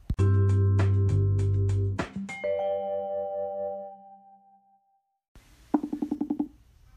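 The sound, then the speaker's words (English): An unanswered phone call ringing with electronic chime tones: a bright melodic sequence that fades away, then after a short pause a quick run of short, pulsed tones. “Well, that was the sound of Johnny not picking up the second consecutive call that I've made to him.”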